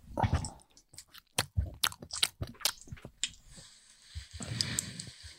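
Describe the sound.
Crunchy chewing and biting from an ASMR eating video: many crisp, close mouth crunches and wet bites come in an irregular rhythm, with short quiet gaps and no talk.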